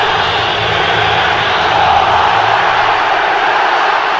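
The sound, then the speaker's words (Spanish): Crowd atmosphere in the Azteca stadium before a football match kicks off: a dense, steady roar of massed voices that holds without a break the whole time. “donde en verdad es increíble el ambiente que se escucha en este estadio.”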